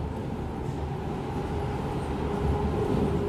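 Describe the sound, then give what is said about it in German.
A tram rocking and rolling through city streets, a continuous low rumbling drone with faint rattling, steady in loudness throughout and with no voices. “Die Bahn schaukelt durch die Stadt und Lisa wird in ihrem Versteck ordentlich durchgeschüttelt.”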